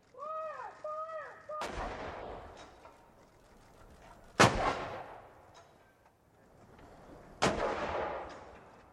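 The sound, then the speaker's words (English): A 21-gun salute at a D-Day anniversary ceremony at a Normandy military cemetery: three loud, sharp rifle volleys about three seconds apart, each with a ringing tail, after a brief shouted command. “Sound there of the 21-gun salute from this morning's Normandy ceremony.”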